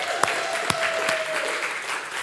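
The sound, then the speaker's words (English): Audience applause at a church gathering, a steady burst of clapping lasting about two seconds at moderate volume, without talk. “he deserves a round of applause.”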